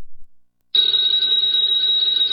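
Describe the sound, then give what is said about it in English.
A telephone bell rings in the opening of an old-time radio drama. After a short silence, one steady, sustained high ring runs unbroken to the end, with no voices. “Ladies and gentlemen, that phone bell means adventure.”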